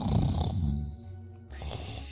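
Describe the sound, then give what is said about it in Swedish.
Snoring sound effect: two rough, rasping snoring breaths, the first loud and full, then a brief quieter lull before the next snore begins. “Så vi kommer lägga in lite snarkljud lite då och då.”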